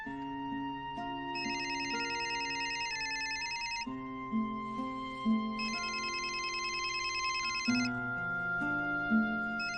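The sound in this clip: A phone ringtone announcing an incoming call plays a bright electronic melody that repeats its cycle steadily for the whole stretch, with no talking.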